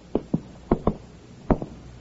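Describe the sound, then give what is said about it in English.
Knocking on an apartment door: six sharp knocks in three quick pairs, loud against a quiet background, with short pauses between the pairs. “He walks down the hall to the door of apartment number 7. He knocks.”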